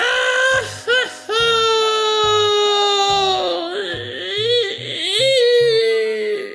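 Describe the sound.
A voice imitating a story character bursting into sobbing tears, a sustained high wavering wail that breaks off briefly and resumes, over a pattern of low musical notes.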